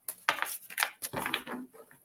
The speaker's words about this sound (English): Oh, 52 card pickup. That's what we have. Let me put these cards back in. They all went flying.